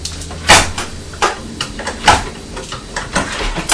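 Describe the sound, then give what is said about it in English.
Scissors being put back in a drawer: a run of sharp clacks and knocks from handling and the drawer moving, several irregular clicks of varying loudness, no voices. “Put them back in the drawer.”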